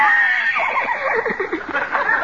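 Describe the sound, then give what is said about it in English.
A horse neighs in one loud, quavering whinny that wavers for about two seconds. “Come on, horsey, come here. Open your mouth. Open up.”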